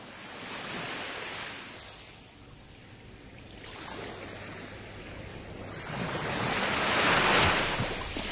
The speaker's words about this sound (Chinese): 听下啲海浪声有咩感觉？